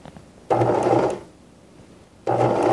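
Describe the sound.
A sewing machine stitches a seam on a cloth shopping bag, its motor whirring in two steady runs separated by a pause of about a second, with no voices.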